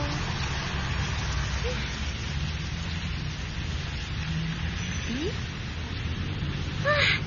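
Rain falling in a steady, even wash of hiss that holds at a constant level throughout, with no distinct drops or breaks standing out.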